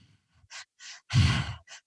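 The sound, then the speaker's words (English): Conscious, continual breathwork breathing, with a few forceful breaths in a quick rhythm. The longest and loudest breath carries a low, sighing rasp, and a short puff follows it. “I lied down and I breathed in the way that they instructed, which is this very conscious, continual breath that kind of sounds like this.”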